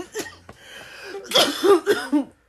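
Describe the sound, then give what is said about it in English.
Coughing from a person with a sore throat: a run of several harsh, throaty coughs in quick, uneven bursts, rising to louder coughs near the end, with no talk over them. “No, these are not Corona coughs”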